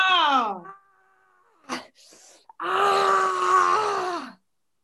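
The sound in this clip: Loud screams from a woman letting out rage during a rage-release training session: a short descending wail, a pause, then one big sustained scream held for over a second before dropping off into silence.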